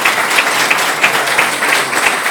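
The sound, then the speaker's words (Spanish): Audience applause at a gathering, dense and loud, with many overlapping claps forming a steady, continuous roar throughout and no single voice standing out. “Muchísimas gracias y aquí quiero dar un aplauso especial a José María de Hotel Calípolis”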